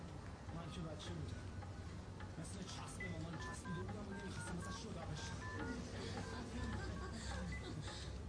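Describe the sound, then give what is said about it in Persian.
Touch-tone keypad beeps as a telephone number is dialed. Many short, evenly spaced tones of varying pitch sound in quick succession over a steady, noisy background. “نشین اینجا بذار من الان زنگ میزنم”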